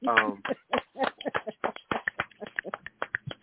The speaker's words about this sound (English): Can we give her a round of applause, please? Round of applause.